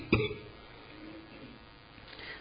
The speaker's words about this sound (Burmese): ချောင်းဆိုးနေတယ်